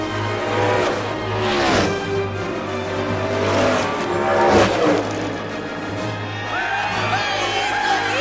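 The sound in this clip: Race cars roar around a track during a race returning after a pit stop, with a behind-the-pace-car restart. A loud, continuous engine drone carries a couple of whooshing surges as cars pass.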